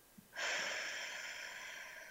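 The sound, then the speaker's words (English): A deep breath drawn in: after a short pause, a soft, airy inhale starts abruptly and stays steady and faint until the end, with no voice over it. “take a deep breath. You forget to do that sometimes, all the way to your toes,”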